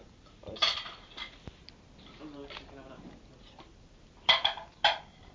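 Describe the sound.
Metal cutlery clinks as a knife is handled to cut an apple. A few sharp chinks come early, soft handling noises follow with a voice in between, and a cluster of clinks comes near the end.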